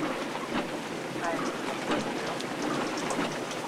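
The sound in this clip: Rain on a car windscreen with the wipers running, heard as a steady, dense patter and hiss of drops at an even loudness throughout.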